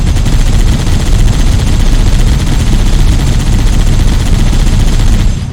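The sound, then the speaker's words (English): Loud, continuous rapid-fire gunfire from shooting in a video game, a dense automatic rattle that stays steady and unbroken before easing slightly at the very end. “Did you push the shoot button? I'm pushing the shoot button. Oh man. Maybe it doesn't work in single player. Do some shooting right now.”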